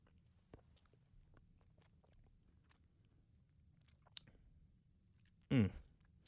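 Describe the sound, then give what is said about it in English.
Chewing and biting on cream cheese ice cream topped with crunchy everything bagel pieces: faint small clicks at first, then one loud, crunchy bite burst near the end. “And they call it cream cheese ice cream with Everything Bagel gravel. Doesn't that sound appealing? All right, we're trying it.”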